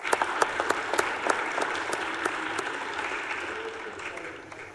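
Applause welcoming guests to the Missouri Senate: a crowd claps in a dense, sustained burst that thins and fades toward the end.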